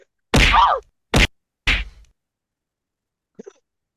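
Someone is struck repeatedly in a comic fight: three loud, punchy thwacks, unevenly spaced, the first longer with a swishing tail, followed by silence and a couple of faint light ticks.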